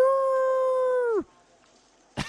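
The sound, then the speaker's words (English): A person imitates a werewolf howl with one long, steady howl that holds its pitch for over a second and then drops sharply. A short, noisy burst follows after a pause. “making werewolf noises to the wolf lady”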